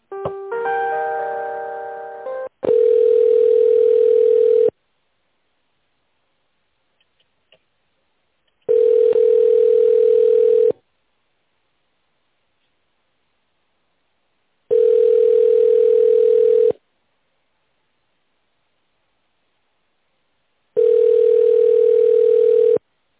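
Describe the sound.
Telephone ringback tone while a call is being put through to a specialist: four long, steady tones at one pitch, evenly spaced with silent gaps between them, preceded by a short burst of layered tones.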